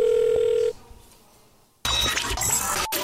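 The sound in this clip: A telephone line tone sounds steadily for under a second. A quiet gap follows, then a louder burst of noisy sound.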